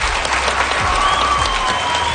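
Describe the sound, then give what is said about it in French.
Audience applause at a high school event: continuous, dense clapping that stays loud and steady throughout, with no gaps. “Aujourd'hui, on les applaudit.”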